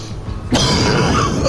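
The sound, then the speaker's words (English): Someone coughs and chokes on silver particles drifting from an air vent. After a quieter start, a sudden loud burst of harsh, raspy coughing breaks in midway and continues to the end. “chokes on silver particles shimmering through the air from a vent and coughs up a ball of flame”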